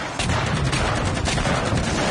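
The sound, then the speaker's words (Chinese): Dense volley of gunfire from an ambush on Japanese soldiers in a wartime battle: a loud, continuous rattle of many overlapping shots that starts abruptly after a brief quiet moment and stays steady to the end. “果然有埋伏，全体射击，”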